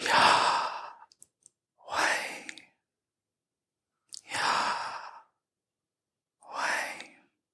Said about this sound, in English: It's a sound word, and it's the sound of breathing.